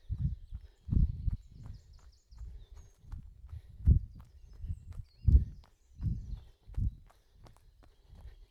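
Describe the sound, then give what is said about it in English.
Footsteps run over pine cones on a springy forest path, making soft, faint, dull thuds in a steady running rhythm with many evenly spaced footfalls. “Lots of pine cones you can hear now, it's much springier.”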